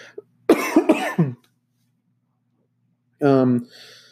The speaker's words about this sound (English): might cough a lot during this.